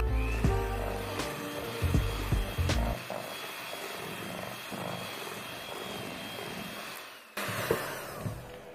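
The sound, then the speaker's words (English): An electric mixer beating cookie dough with vanilla extract and spices added, giving a steady buzzing motor whir that dips briefly near the end and then resumes. “You just mix it in with the mixer.”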